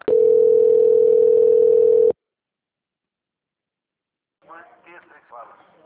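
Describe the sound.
A telephone tone sounds during a call transfer: a steady, single-pitched, loud tone held for about two seconds that cuts off abruptly, followed by silence and then a voice speaking.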